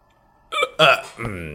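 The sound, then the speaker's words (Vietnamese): A voice performs a smug hiccup: a sharp voiced catch, then a louder gulp, and finally a drawn-out tonal sound. It is clear and fairly loud. “làm ra một cái nấc với vẻ mặt đắc ý.”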